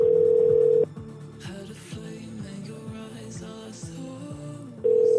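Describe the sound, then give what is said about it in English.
Ringback tone on an outgoing phone call: a steady, low, loud tone sounds for under a second and then cuts off. Other softer tonal sounds fill the gap, and the ringing tone returns near the end. “Oh, Deborah's phone's ringing. Here we go.”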